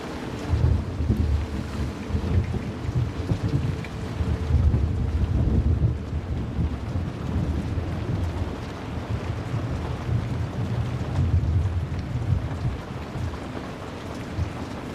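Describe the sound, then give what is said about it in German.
A thunderstorm with heavy rain lashing against window panes as wind blows, a dense, steady roar that holds for the whole stretch with low rumbling swells underneath. “Regentropfen peitschen gegen die Scheiben und der Wind treibt dunkle Wolken über den Himmel.”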